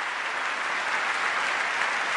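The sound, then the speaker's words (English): Applause in Congress during a partisan response to a speech: steady, dense clapping from many hands, even and continuous throughout. “On the Democratic side, many people sitting on their hands, not joining in the applause.”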